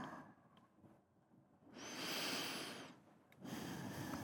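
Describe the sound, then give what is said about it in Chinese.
Heavy, uneven breathing: long, noisy, hissing breaths that swell and fade irregularly, with a drawn-out breath in the middle and another starting after a short gap, quiet and without talk. “你的呼吸乱了”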